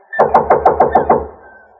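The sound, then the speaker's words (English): Knocking on a door: seven quick, evenly spaced raps in a steady rhythm, loud and hollow with a short ring after each, then fading out; no voices. “Anybody here? I'm knocking down the door.”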